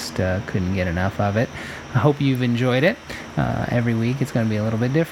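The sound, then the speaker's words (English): Crickets chirp outside open windows on a hot night while fans run, a faint steady high chirping kept low under a voice that talks throughout. “I got all the windows open, I got the fans going, you can hear the crickets chirping out there.”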